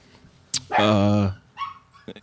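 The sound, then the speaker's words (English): A pet dog named Basil gives one loud, drawn-out bark with a strong, tonal, harmonic quality, followed by a quieter, higher whimper and a couple of short sounds at the end. “That's the unofficial third member of the pod, my dog Basil.”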